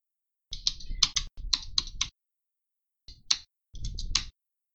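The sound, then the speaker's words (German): Rapid computer keyboard typing while an email is written during a working-group meeting, coming in a few quick bursts of clicks separated by short pauses. “Ja gut, ich schreibe kurz eine Mail, warte. Dann hau ich das schon mal ins Trello.”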